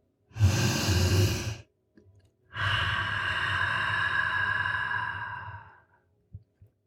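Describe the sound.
Slow, deep breathing during a mantra meditation: one full inhale, a brief pause, then a long drawn-out exhale that fades away, alone with no talk.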